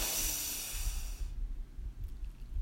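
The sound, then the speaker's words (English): A deep breath drawn in from the belly: a long, airy hiss lasting just over a second, then cutting off into near quiet. “We begin by taking three really deep breaths from the bottom of our belly. We hold slightly at the top and then we release with a loud audible sigh. So let's breathe in”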